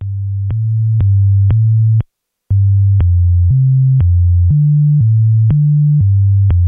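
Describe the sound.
Computer-generated pentatonic music made of pure, sine-like electronic tones: a string of many short, even notes stepping between a few low pitches, with one brief pause near the start, played alone and clean.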